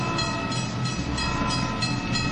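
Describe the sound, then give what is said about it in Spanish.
An old-fashioned train travelling: a continuous loud rumble of rolling carriages with a steady, rhythmic clatter pulsing through it from start to end. “Un tren anticuado me llevó de Temesvar hasta una distancia todavía respetable de mi punto de destino.”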